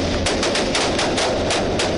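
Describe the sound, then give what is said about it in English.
Sustained rapid machine gun fire in a fierce gun battle during a house raid, with high-caliber rounds fired from inside the house. The bursts come in a loud, unbroken, fast rhythm throughout. “So when we first knocked on the door of the house, the shooting started. A fierce gun battle erupted.”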